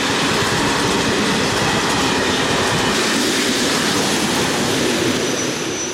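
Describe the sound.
Train wheels rolling on rails make a loud, continuous rumbling roar with a dense, steady rattling clatter that stays even throughout, with no voices.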